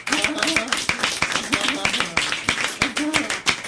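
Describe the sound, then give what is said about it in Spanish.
Audience applause for participants' effort at a talk on psychiatry and ideology: hands clap in a brisk, fairly regular rhythm, crisp and moderately loud, with voices faintly mixed in among the claps. “yo creo que merece un aplauso, ¿no? El esfuerzo que han hecho los compañeros.”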